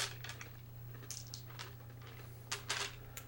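Many dice rattle and clatter during a re-roll of hits in a tabletop game with tanks. Faint, scattered clicks run throughout, with a louder burst of tumbling near the end.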